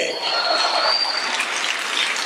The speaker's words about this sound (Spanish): Démosle un aplauso al Señor, Dios de los cielos.